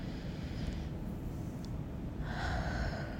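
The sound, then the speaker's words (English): A deep breath drawn in and let out, a soft, airy rush of breathing that fills the moment steadily, with no talk. “If you're listening right now, just take a deep breath. One more time.”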